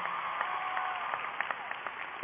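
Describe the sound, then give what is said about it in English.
An audience in front of a stage applauds with steady, dense clapping that continues without a break. The sound is slightly muffled, with scattered sharper claps standing out. “Give yourselves another round of applause”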